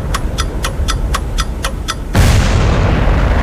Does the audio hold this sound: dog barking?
no